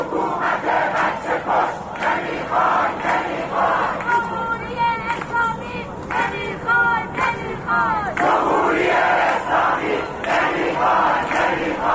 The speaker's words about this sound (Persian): مردمی که در گذرگاه ها علیه دیکتاتوری شعار می دهند و حکومت را به کشتار کودکان متهم می کنند.